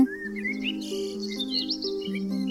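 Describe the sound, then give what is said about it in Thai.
Chirping bird calls used as a sound effect for pigeons flying to a kitchen window: bright, quick tweets and short rising whistles over a sustained low steady tone, with no voices. “ก็มีนกพิราบสองตัว บินมาเกาะอย่างหน้าต่างห้องครัว ต่อมานกเขาอีกจำนวนหนึ่งก็บินมาอีก และสุดท้ายก็มีฝูงนกอีกมากมาย”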